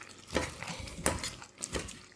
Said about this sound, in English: These pastry blenders, they have sharp blades. I mean, they're not like knife blades, but they'll go through a tomato, no problem. So I'm crushing this up.